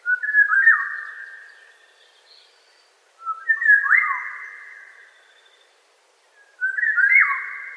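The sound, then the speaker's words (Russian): A Eurasian golden oriole sings three clear, fluting whistled phrases, each a short liquid warble with a slight rise and drop, separated by pauses of silence. “Вот Иволга.”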